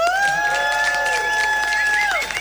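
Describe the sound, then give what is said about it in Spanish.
Audience applause at a university event: dense, continuous clapping throughout, fairly loud, with a sustained steady tone above it that drops away near the end. “aplauso para el señor Tiago.”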